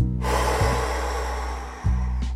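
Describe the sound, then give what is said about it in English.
Breathing in and then out through the mouth during a guided breathing exercise: a long, steady rush of breathy air that fills the whole clip, with a low constant hum underneath and no talking. “Now inhale. Exhale, mouth.”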